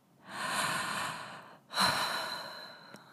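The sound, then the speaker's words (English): Quickened breathing during a guided breathing exercise: two long, airy breaths with no talk, the second starting more sharply than the first. “Now let's begin to quicken your breath.”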